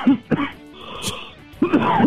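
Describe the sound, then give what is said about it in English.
Rough throat clearing, a few harsh guttural bursts: two quick ones at the start and a longer rasping one after a short pause, fairly loud and with no talk. “that McRib is really doing a number on you. Ah, a lot of grease in my throat, sorry.”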